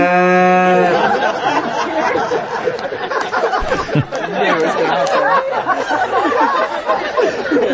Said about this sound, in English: The cow apparently had a problem. Take a listen.